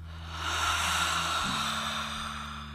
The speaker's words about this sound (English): Inhale. Audible exhale.